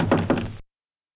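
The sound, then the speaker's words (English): Quick knocks rap on the door of a flimsy house built of sticks, a short cluster of dull, hollow taps that ends abruptly after about half a second. “He came to the house of sticks, where the two little pigs now lived. The wolf knocked on the door.”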